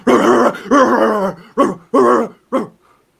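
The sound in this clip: A human voice imitates a growling creature during a tabletop role-playing game: five rough, throaty growls, the first two long and the last three shorter and clipped, then silence.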